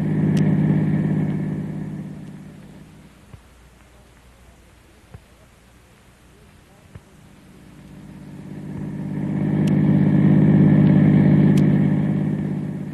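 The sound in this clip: A car drives off, its engine rumbling loudly at first, fading to a low idle hum with a few faint clicks, then swelling again into a steady engine roar.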